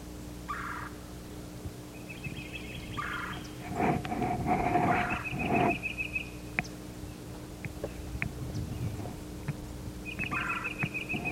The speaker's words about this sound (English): There's a yellow-throated warbler singing.